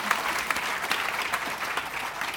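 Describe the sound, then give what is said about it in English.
An audience at a prize event gives a round of applause, with many hands clapping in a dense, continuous patter at moderate volume and occasional sharper individual claps rising above it. “thank Fia Meta publicly and give her a round of applause.”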